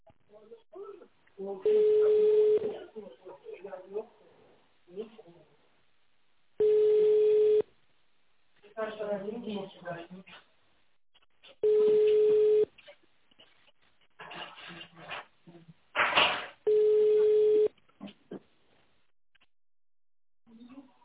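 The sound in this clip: An office phone line plays its ringing tone while a caller waits after an automated menu: four steady tones of about one second each, evenly spaced, with other muffled sounds between them.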